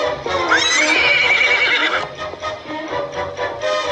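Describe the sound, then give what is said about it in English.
A horse trots up and lets out a loud, high whinny that wavers for about a second and a half. Steady clip-clopping hoofbeats follow and continue to the end. “Thunderhead trots up behind them, and Tony and Tia close their eyes, levitating up onto the horse's back.”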